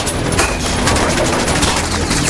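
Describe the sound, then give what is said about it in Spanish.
Dense gunfire erupts from all sides in a firefight, many shots overlapping into a continuous, loud, crackling barrage with no pauses. “dónde vienen esos disparos? De todos lados.”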